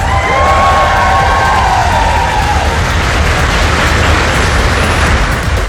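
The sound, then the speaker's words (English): Cheering from Foreign Office staff greeting Ukrainian President Volodymyr Zelensky as he arrives in Downing Street for talks with the Prime Minister, a loud, unbroken wash of crowd cheers and shouts sustained for several seconds. “Volodymyr Zelensky was also cheered by staff from the Foreign Office as he arrived for talks with the Prime Minister.”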